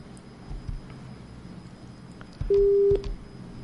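A steady telephone line tone marks a call failing from network trouble, a single low, loud tone lasting about half a second after faint background noise.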